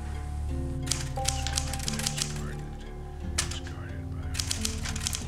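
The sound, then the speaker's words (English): Typing in a saloon, heard as bursts of rapid clattering keystrokes separated by short pauses, over a steady bed of sustained low tones. “In the saloon, Chris types intently.”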